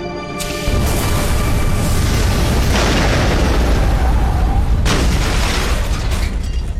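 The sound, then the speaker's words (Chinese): A bomb explodes on a bus in a TV drama: a huge, loud, roaring blast that rumbles on for several seconds, swelling again in a couple of heavy surges, with no voices heard. “小青的大胆尝试证明了炸弹是人为引爆，而且对方就在车里。”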